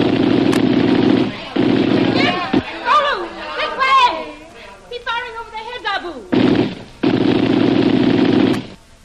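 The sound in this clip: Gunfire in a radio drama shootout, with long, loud bursts of rapid shots and excited voices in the gaps between volleys.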